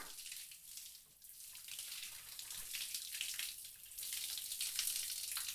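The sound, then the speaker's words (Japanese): Hot water is poured over hair to rinse it, making a steady, soft, hissing splash that runs continuously and grows slightly louder toward the end, with no voices. “よーく流すのが大事なんだって。お湯かけるだけで汚れがほとんど落ちるみたいだよ。”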